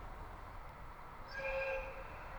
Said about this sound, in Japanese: 4番線から札幌行き快速エアポート107号が発車いたします。